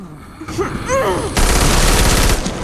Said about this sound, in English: Horrified, she opens fire.